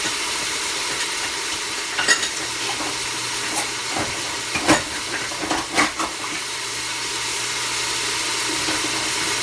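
A pot simmering on the stove gives a soft, steady hiss, with a few light clinks and taps scattered through the middle.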